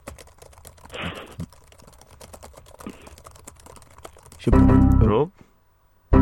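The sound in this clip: Typing on a computer keyboard: a steady run of quick, light key clicks continues through the whole stretch. Voices break in briefly over the tapping, with one louder burst near the end.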